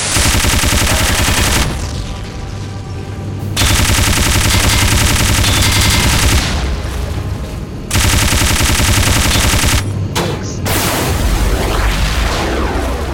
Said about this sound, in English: Shotgun, machine gun.